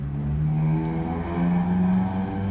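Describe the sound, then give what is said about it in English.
Engines of Honda Civic cars racing down a street, a loud sustained harmonic drone that shifts in pitch as the revving swells and eases. “Now's about the time where the Honda Civics that think they're fucking Lamborghinis are racing down my street.”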